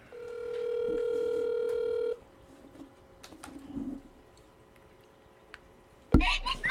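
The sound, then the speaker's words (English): A telephone dial tone heard while a phone call is being dialed: a steady, unbroken tone for about two seconds that cuts off abruptly. Quiet follows with a few faint clicks, then a sudden loud burst at the very end. “I can call them. See if they want to talk or not. Yeah, it's right here. Let me dial him up.”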